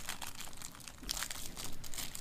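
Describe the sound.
Crinkling and crumpling of a cigar package being opened by hand, a dense run of crackly rustles that continues through the whole stretch at moderate loudness with no talk.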